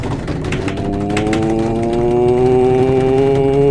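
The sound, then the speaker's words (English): A voice imitates a drum roll with a continuous rapid buzzing trill whose pitch rises gradually over a few seconds. “And guys, if you can give me a drum roll.”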